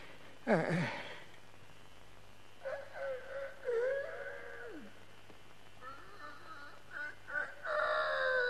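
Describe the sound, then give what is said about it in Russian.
Rooster crowing at an unexpected hour: a sharp cry near the start, then two long, wavering, high-pitched crows, the first sliding down in pitch at its end, with no talk over them. “Что за петух об эту пору?”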